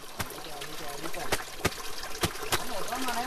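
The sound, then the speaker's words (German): Stream water trickles and gurgles as a Kogi woman washes laundry in a creek in Colombia. A few sharp knocks come from a stone beaten against a shirt over the running water. “In einem Bach wäscht eine Kogi-Indianerin Wäsche. Mit einem Stein klopft sie auf ein Hemd, um den Dreck zu lösen.”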